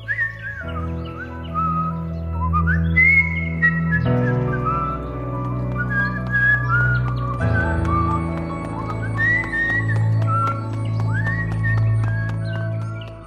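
A person whistles a melodic tune with wavering notes that step up and down, carried over a steady low sustained tone underneath; no voices are heard.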